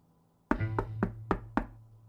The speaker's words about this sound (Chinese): 敲门声响了半天没人应